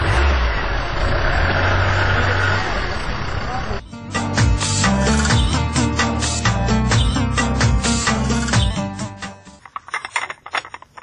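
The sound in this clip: A car engine idles with a steady, broad rumbling drone, and after a few seconds voices talk over it before the sound fades into scattered clicks.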